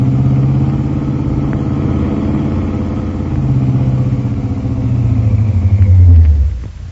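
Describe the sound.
A car engine rumbles as the vehicle putters around a corner, a steady low drone that swells near the end before quickly dropping away. No voices are heard.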